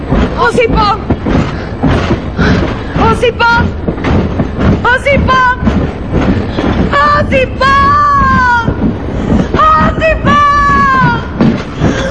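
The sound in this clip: A train running on rails gives a steady, dense rumble that fills the whole clip while several loud, urgent voices call out over it.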